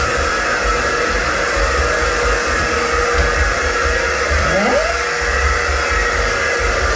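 A hair dryer blows in the morning as a woman dries her hair, a loud, steady airy whir that holds unbroken and even throughout.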